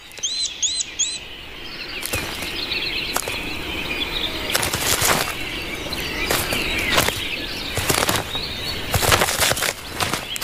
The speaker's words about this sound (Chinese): 青鸟因势利导，从现在开始，它们只会在树洞外喂雏鸟。犹豫的雏鸟只好也钻出树洞。